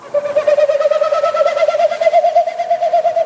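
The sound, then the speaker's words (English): A Wilson's snipe makes its winnowing flight sound with its wings and tail: a loud, rapidly pulsing hollow hooting tone that goes on without a break and rises slightly in pitch. “What you heard is a Wilson snipe doing its territorial sound, but it's made with its wings and its tail.”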